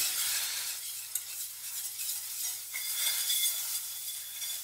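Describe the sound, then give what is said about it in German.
Butter and flour being stirred into a classic roux in a pan: a soft, steady scraping swirl with a faint sizzle underneath and one small clink, quiet throughout and with no voices. “Machen hier mal, wie zu Großmutters Zeiten, eine klassische Mehlschwitze. Etwas Butter, etwas Mehl verrühren.”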